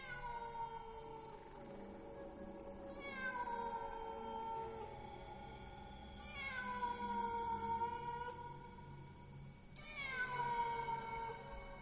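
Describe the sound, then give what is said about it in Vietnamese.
Cats yowl mournfully in a few long, drawn-out wails. Each cry starts high and sinks in pitch, loud and harmonic over a low murmur, with no voices. “Trong không gian bây giờ vang lên những tiếng mèo gào, kêu lên vô cùng thảm não. Tiếng mèo kêu làm cho người ta rùng mình”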